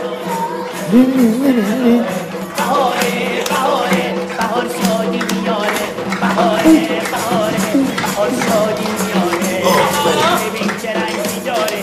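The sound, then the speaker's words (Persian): A party crowd celebrates with loud, continuous noise: many overlapping voices blend into a dense, lively din that carries through without a break. “چه سر و صدایی میاد دایی جشن شروع شده”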